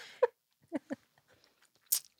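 Crisp crunching bites and chewing of a watermelon-flavored chamoy pickle snack, with a few distinct wet crunches separated by near silence.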